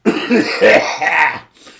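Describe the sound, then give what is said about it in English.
A person coughs loudly, a few harsh coughs in quick succession that break off into silence at the end. “Excuse me, I've got a cough.”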